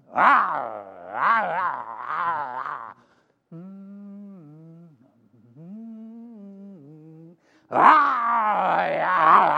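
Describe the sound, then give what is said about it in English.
A person imitates the roar of a big male lion with loud, rough, growling bursts, then a quieter, steadier drawn-out voiced tone, and another loud roar at the end. “Here come the big king lion, a big one. Big head and big body. This guy go,”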